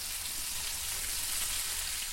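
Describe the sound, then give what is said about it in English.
Homemade hamburgers sizzling in a pan give off a steady, dense hiss of frying fat with a fine crackle running through it. The sound holds at an even level throughout, with no talk. “Food writer Sybil Kapoor sizzles up her own homemade hamburgers”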